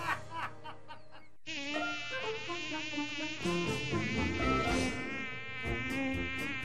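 Two mosquitoes buzz with a thin, high, steady whine that wavers slightly in pitch, starting abruptly after a brief opening sound and continuing evenly to the end.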